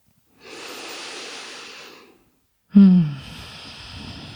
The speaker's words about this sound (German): Atme tief ein und aus.